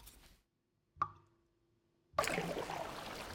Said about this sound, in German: Magst du Seerosen? Komm, wir paddeln mal dahin. Du paddelst dahin. Ich paddel.